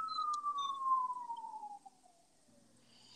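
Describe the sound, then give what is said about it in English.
Police siren passing outside: one long wailing tone that glides steadily downward in pitch and fades over about two seconds, leaving quiet background. “I think that's the sound of the police.”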